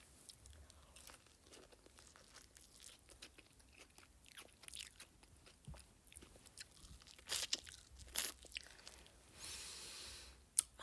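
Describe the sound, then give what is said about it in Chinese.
Crunchy biting and chewing of sweet fruit corn, with many irregular crisp bites and moist chewing sounds throughout and a few louder crunches near the end. “我在吃水果玉米。”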